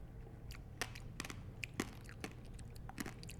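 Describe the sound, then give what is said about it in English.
Faint clicks and light scrapes as a spoon scoops the flesh of a passion-fruit-like fruit from its shell, a scattering of small sharp taps over a low, quiet background. “I'm going to eat this one delicately with a spoon. Ooh, yum. This is better than a passion fruit. I mean, looks wise. Let's see how it eats. Scoop a little bit of shell out.”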